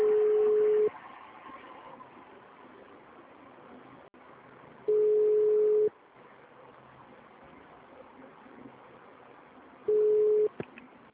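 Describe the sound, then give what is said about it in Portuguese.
A dropped telephone call leaves a steady mid-pitched line tone that sounds three times as long, even beeps about five seconds apart, with faint line hiss in the gaps. “Caiu a ligação. Caiu.”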